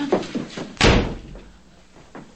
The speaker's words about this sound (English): slams the door shut and glares at her